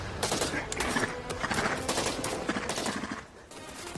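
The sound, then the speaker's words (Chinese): Machine gun firing in a trench battle: dense, rapid bursts of shots pile up in a continuous rattling fusillade that eases off and thins near the end. “张安东抓起机枪继续开火”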